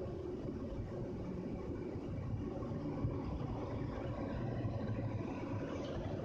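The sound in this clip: Inside a moving car, a steady low rumble of road and engine noise carries on evenly throughout, with no talking.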